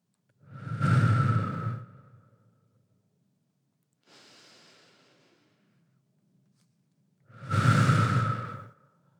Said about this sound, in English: Without fail, those 8 breaths always make me feel better.